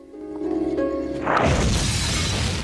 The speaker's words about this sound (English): She shudders in shock as a vast, fiery explosion blasts all the windows out of the house.